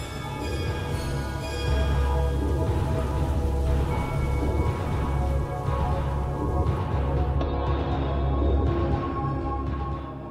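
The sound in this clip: Heavy rain in a raging windstorm: a loud, continuous roar of downpour lasts about ten seconds, with a deep, sustained rumble underneath and no voices.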